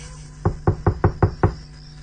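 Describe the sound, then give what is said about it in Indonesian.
Six sharp knocks on a door in a quick, evenly spaced series, loud and punchy over a low steady hum. “Dan kudengar lagi suara ketukan pintu.”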